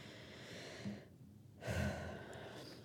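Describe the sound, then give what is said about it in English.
A deep breath drawn in, a soft rush of air that swells sharply after a brief lull and then trails away, heard alone without talk. “So deep breath.”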